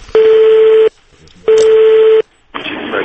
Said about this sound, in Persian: الان دوباره زنگ میزنمش